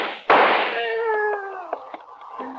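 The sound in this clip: A single gunshot from a police officer firing at a fleeing man: one sharp, loud crack, followed at once by a voice letting out a sustained cry, with a few small clicks afterward.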